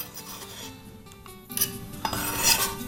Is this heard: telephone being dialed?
no